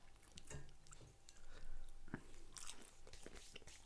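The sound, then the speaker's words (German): People chewing and biting food while eating, with many soft, moist crunches and mouth noises that come in uneven bursts and shift between quieter and louder stretches. “ist auch geil, so Vodcast und wir essen einfach anstatt zu trinken”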